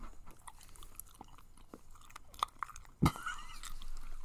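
Close-up chewing of sharp cheddar cheese, quiet at first, with a few soft crunchy bites and then a sharper, louder crunch near the end.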